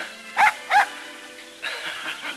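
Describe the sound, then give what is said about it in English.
Two sharp, high yaps from a young collie puppy tugging at blossoms in a flower bed around a fountain. The yaps come in quick succession, followed by softer background rustle. “a collie puppy tugs at blossoms”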